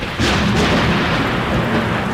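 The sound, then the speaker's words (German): Thunder rolls from a passing thunderstorm front near Munich, a loud, dense, continuous rumbling roar that swells in almost at once and holds steady to the end, with no voices. “Um den Norden Münchens macht die Gewitterfront einen Bogen.”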